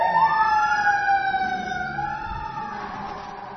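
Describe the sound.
An ambulance siren wails in a loud, sliding tone that climbs and then sinks again, its layered harmonics holding steady over a faint low rumble.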